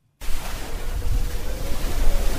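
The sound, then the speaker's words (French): Waves of Lake Tanganyika slap against the walls of houses built on Mvugo beach, a loud, continuous rushing wash that starts abruptly after a brief silence and surges unevenly throughout. “Nous sommes précisément sur la plage de Mvougo, où sa grande partie est occupée par l'eau du lac Tanganyika. Sur terre se trouvent des pirogues, certaines détruites. Sur cette rive, les vagues tapent sur les murs des maisons érigées,”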